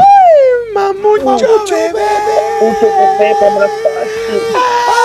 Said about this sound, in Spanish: Ponme el fondo erótico, por favor.